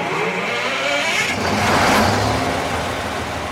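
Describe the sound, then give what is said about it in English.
A generator the size of a semi-trailer, out behind a nursing home, starts up with a loud, steady, broad engine roar that swells midway and then holds. “Okay, flip the switch to manual. Out back behind the DeLand nursing home, one of the directors fires up a generator the size of a semi-trailer.”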